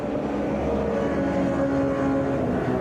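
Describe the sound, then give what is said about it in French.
A supersport racing motorcycle heads back onto the track in a world championship supersport race, its engine a steady, buzzing drone with sustained tonal whine at even loudness throughout. “C'est Okubo qui repart actuellement en piste sur le championnat du monde super sport”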